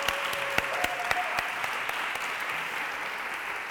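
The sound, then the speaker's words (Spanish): Applause at a gathering, heard as a steady, dense patter of many hands clapping at once. A few sharper claps stand out. The sound stays fairly faint and even throughout, with no voices over it. “Onda Color, que es una radio comunitaria de Málaga, así que desde aquí un aplauso y un agradecimiento por la acogida que nos han hecho.”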